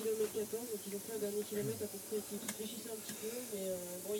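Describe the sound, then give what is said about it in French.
Steady, soft hissing of a pot of water boiling on a stove burner, a continuous low rush with no breaks. Faint voices murmur underneath. “Ouais, mais là, ça bout, tu peux enlever ta gamelle”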